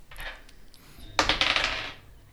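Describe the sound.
Dice rolled to hit during a tabletop role-playing game: a quick, bright clatter of many small rattling knocks that dies away within a second, after a soft rustle.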